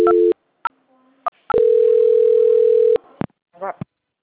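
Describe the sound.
Telephone tones during a call transfer: a steady tone, a few short beeps and a soft hum, then a long unbroken tone lasting over a second, ending with brief clicks and a short burst.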